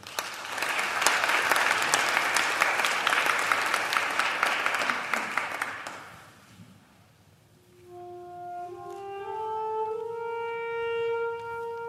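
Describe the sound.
Audience applause welcoming a speaker: dense, steady clapping for about six seconds that fades out, followed after a short lull by a sustained, clear harmonic tone.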